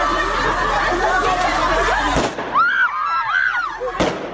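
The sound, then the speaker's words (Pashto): Women shouting at a protest over beauty salon closures, with gunfire from Taliban forces in Kabul's streets. A noisy crowd clamor is cut by a sharp shot, then high wavering cries follow, and a second sharp shot ends it. “دا د اعتراض کوونکو مېرمنو شور او د طالب ځواکونو د ډزو غږونه دي چې ور بیا د کابل د شارې نو له کوڅو واورېدل شول.”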